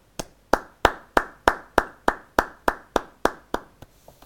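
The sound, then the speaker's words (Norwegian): Polite golf-style applause: about a dozen crisp hand claps at a slow, steady, even pace, followed by a few softer, trailing claps as the clapping dies away. “Vi klarte det! Golfapplaus.”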